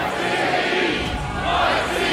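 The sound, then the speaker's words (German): Live studio audience shouting as the crowd in a televised Passion play, many voices merging into a loud, surging roar that swells again near the end. “Auch stark Henning Baum als Pontius Pilatus, der Jesus' Todesurteil spricht und bei dem das Live-Publikum in die Rolle der Menschenmenge schlüpft.”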